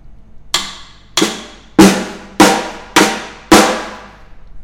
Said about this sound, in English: That's called a rim shot.